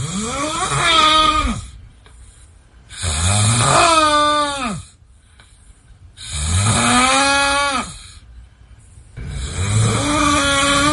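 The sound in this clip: A man snores loudly: four long, rasping snores in a slow, even rhythm, each swelling and fading, with quieter breaths between them.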